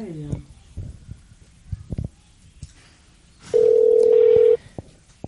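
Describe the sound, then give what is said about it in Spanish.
An outgoing telephone call produces a single ringback tone: one steady mid-pitched beep lasting about a second. Quieter, scattered sounds come before it. “vamos a estar llamando ahí un momentito. A ver si lo coge. Ahí está, sonando.”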